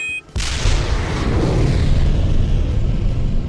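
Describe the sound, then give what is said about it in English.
Rocket launching with a sudden, loud, rushing roar that starts after a brief lead-in and holds steady, dense and rumbling, to the end. “There goes Gus the rocket! He's really moving!”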